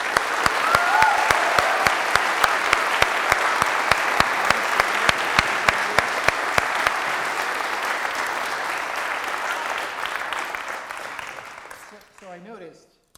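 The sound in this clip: An audience applauds to welcome a programmer and designer as the speaker. Dense, steady clapping holds for about twelve seconds, then thins out and fades, with a voice briefly at the end.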